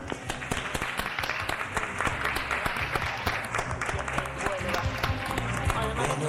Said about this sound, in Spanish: Por ejemplo, hacemos en este instante un aplauso para que la gente que se encuentre solo no se encuentre solo.